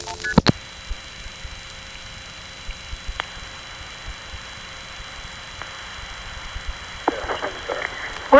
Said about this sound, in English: What I'm going to try to do here is dial a few more digits after 180.